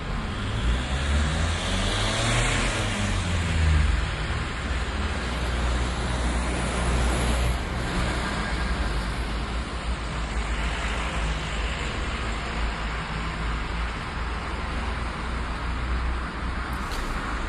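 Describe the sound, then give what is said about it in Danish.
Cars driving past on a road make a continuous, loud rush of engine and tyre noise that holds steady throughout, with a vehicle's tone dipping as it passes early on. “Det er biler, det her.”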